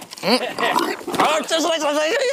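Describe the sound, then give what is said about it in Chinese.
Xiang pigs squeal loudly while being caught, in shrill, strained cries that rise and fall in bursts, mixed with people's voices. “他告诉我们，香猪性子野，每次抓猪前都会先喂食，趁他们吃食的时候搞偷袭。”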